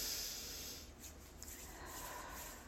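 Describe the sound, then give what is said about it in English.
A single slow, deep inhale: a soft, steady, airy hiss drawn out over a few seconds, faint and with no talk. “let's do three deep breaths. In.”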